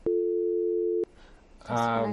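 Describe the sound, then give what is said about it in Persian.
A telephone tone sounds after a caller's line is cut off: one steady, even tone lasting about a second stops abruptly, followed by a short hiss and then a voice starting to speak. “د دوی د ټلیفون قطع سو”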